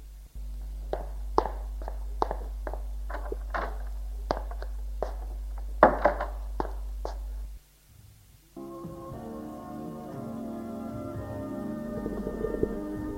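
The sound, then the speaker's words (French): Footsteps of a woman going up to her bedroom: a steady, even run of soft taps over a low hum, which give way to a tonal, musical passage. “Je vais me coucher. J'espère que tu auras repris tes esprits demain matin. Bonne nuit. Elle monte dans sa chambre.”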